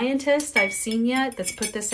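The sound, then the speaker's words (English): Clinking of a tablespoon measuring cup against a drinking glass, light metallic chinks repeating beneath a person's steady talking. “What you're hearing is my tablespoon measuring cup in my glass.”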